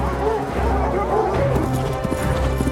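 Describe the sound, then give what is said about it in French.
Horses gallop in a stag hunt in a film scene, with a pack of hounds barking over the rapid hoofbeats and a voice speaking over the action. “L'équipage galope à ses trousses.”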